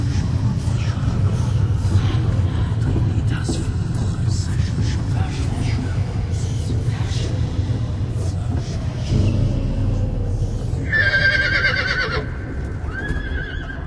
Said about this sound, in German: Der uralten Kathedrale des heiligen Simeon scheuen die beiden schwarzen Pferde. Ihr teuflisches Gewieher zerreißt den frühen Morgen in blutige Fetzen.